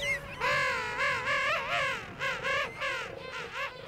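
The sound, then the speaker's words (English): Hungry seabird chicks and their parents calling on South Georgia Island, with many warbling, undulating calls overlapping in a loud, continuous chorus and no talking. “Mark recorded these hungry Oakham boys and their royal mothers and fathers on South Georgia Island”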